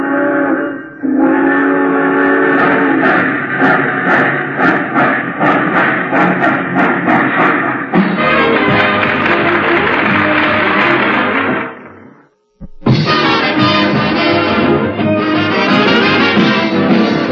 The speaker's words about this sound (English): All passengers taking the chief to Chicago, please walk on tiptoes as you board the train.